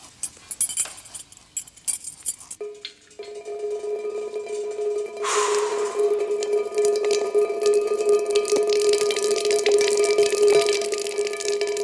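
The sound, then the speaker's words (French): Water flowing over pebbles at Cayenne. A few light clinks come first, then a steady, continuous rushing that grows slightly fuller and carries on to the end. “De l'eau qui coule. Oui, de l'eau qui coule, oui, oui, sur les cailloux de Cayenne.”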